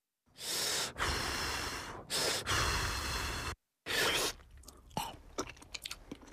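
Chewing while tasting a Kaiyang spinach dish. A few loud, breathy bursts come first, then soft, irregular, moist chewing with small crunchy clicks.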